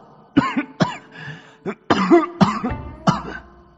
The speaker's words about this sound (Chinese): 姚崇一时情急，不由得连声咳嗽